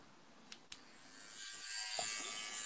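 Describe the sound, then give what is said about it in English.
An electric shaver buzzes into life after two sharp clicks, its steady hum swelling a little louder and running on to the end. “Are you shaving? On the podcast.”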